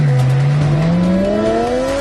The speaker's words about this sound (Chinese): 急速马力的声浪轰鸣